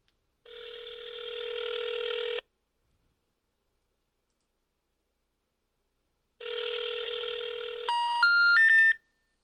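A call placed to a Skype for Business number, a toll-free number that is not in service: two long ringing tones separated by silence, then three rising beeps of a not-in-service signal. No voices.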